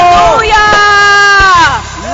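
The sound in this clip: An audience shouts praise to Jesus, a loud, sustained mass of voices with pitched whoops and cries that swell together and dip briefly near the end.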